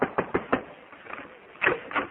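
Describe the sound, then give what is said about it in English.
Knocking on a door, muffled and thin in tone: a quick run of a few raps, a brief pause, then a couple more knocks. “I'll knock on the door and see if you're ready to leave.”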